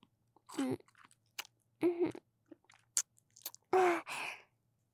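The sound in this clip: Faint chewing and eating mouth sounds, a series of short wet, crunchy bursts spaced irregularly, some mixed with soft voiced hums.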